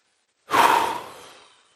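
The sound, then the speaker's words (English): A person takes one deep breath during a prayerful pause, a loud breathy rush that starts abruptly and fades slowly over about a second, with no talk. “Take a deep breath.”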